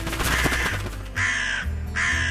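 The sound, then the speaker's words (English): Crows cawing as they fly over: a few loud, harsh, rasping caws in separate bursts with short gaps between them. “Three crows will fly over and caw.”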